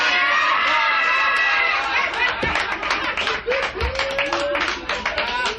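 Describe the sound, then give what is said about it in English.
A live audience cheers, claps and calls out in bursts of crowd noise, with voices shouting back and forth over a steady murmur of chatter. “there's a lot of you know, call and response type things, you know, that you'll hear from the audience going back to the performer”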